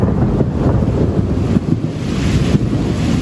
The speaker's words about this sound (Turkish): Başkent Ankara'da akşam saatlerinde kuvvetli sağanak etkisini gösterdi, yağış gök gürültüsünü de beraberinde getirdi. Gökyüzünde çakan şimşekler böyle kaydedildi.